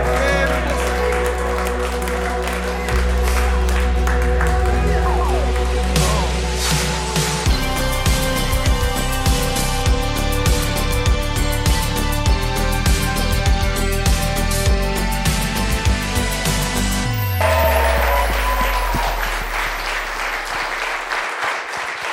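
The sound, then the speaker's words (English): A church audience applauds as a shout of praise at a morning service. The clapping is sustained for over twenty seconds over continuous music. “Why don't we just give God a shout of praise this morning?”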